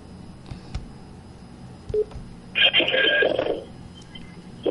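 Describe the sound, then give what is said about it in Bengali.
A telephone rings with an incoming call: one short, bright electronic ring lasting about a second over a quiet low background. “Phone চলে এসেছে আর একটি phone”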